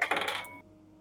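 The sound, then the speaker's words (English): A regular die rolls during a tabletop roleplaying game, making a short, bright clatter of a few rattling impacts that lasts about half a second and then falls quiet. “Here, I'm going to roll a regular dice this time.”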